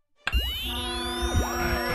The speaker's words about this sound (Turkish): Aa, radyonun pili bitti sanırım.